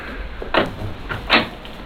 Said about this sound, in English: Now, come inside. Close the door behind you.